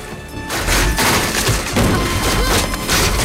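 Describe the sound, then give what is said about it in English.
A meteor smashes through a chessboard on a table amid falling meteors. A sudden loud crash breaks in after a brief quieter start, followed by dense, continuous thuds, rumble and clatter. “Larger meteors are now falling. One smashes through a chessboard on a table.”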